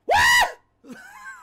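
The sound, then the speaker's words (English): An excited squeal from someone reacting to a feat of athleticism in a game bursts out loud and high-pitched for a moment, then gives way to a quieter, wavering vocal sound. “That was the squeal that came out.”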